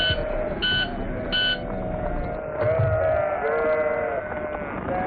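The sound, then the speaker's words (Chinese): A lamb that strayed from the flock and is injured with a broken leg bleats in a wavering, quavering voice. A few short, high electronic beeps come before the cries. “那边有只掉队的小羊，好像受伤了。咱们过去救救他吧。”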